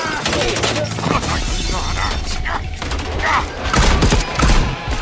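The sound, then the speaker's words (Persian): Gunfire in a firefight near a window: a fusillade of rapid, sharp shots crackles throughout, swelling into louder bursts toward the end. “شلیک نکنید، لعنتی ها شلیک نکنید.”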